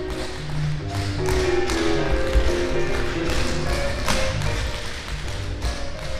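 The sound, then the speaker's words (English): Tap shoes of a dance class clatter through the Shim Sham Shimmy, with many quick, dense taps and thuds overlapping at a steady, lively level from start to finish. “What you just heard was the semester's Dance 104 class doing the Shim Sham Shimmy.”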